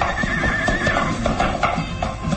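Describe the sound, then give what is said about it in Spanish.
A horse whinnies as a rider mounts, a high wavering neigh early on over a dense, noisy background with scattered thuds, fairly loud throughout. “Monta al caballo sin quitar la mirada sobre su fiel criado, el gitano Sarco.”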